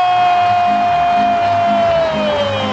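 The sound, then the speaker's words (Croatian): Fans cheering in Belgrade Arena during a Serbia versus Montenegro match: a loud, unbroken crowd roar with rhythmic low pulses beneath it and a steady high tone running throughout. “Trese se Beogradska arena od navijanja publike.”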